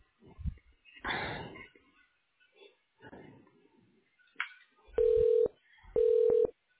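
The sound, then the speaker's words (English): Two telephone keypad tones dial an extension on a medical office's automated phone menu, each a steady beep of about half a second, following faint rustles and soft breathing sounds. “you may bypass this message at any time by dialing the 5-digit extension number”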